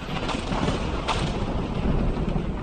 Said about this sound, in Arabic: وتلبد بالسحب الفضاء واكفهر وجه السماء وأبرق البرق وأرعد الرعد